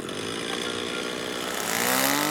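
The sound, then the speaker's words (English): Chainsaw cutting through a tug-of-war rope, a loud, steady buzzing engine whine with a raspy edge that grows slightly louder toward the end. “In a campaign video on her website, Margaret Stock wields a chainsaw to cut through a tug-of-war rope representing gridlock in Washington, D.C.”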